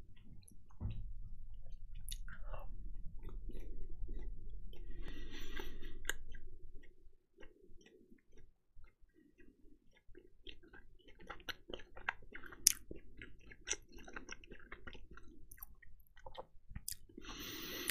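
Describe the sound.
Chewing on coconut candies, moist and squishy for the first several seconds, then thinning into sparse small mouth clicks and ticks, all fairly quiet and with no talking.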